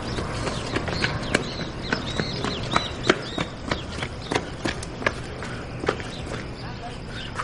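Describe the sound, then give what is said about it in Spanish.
Running footsteps of a man hurrying along a village street make quick, regular, sharp taps in an even rhythm over a soft background murmur. “Renato se acerca corriendo hasta donde está Daniel, el cual le espera serio.”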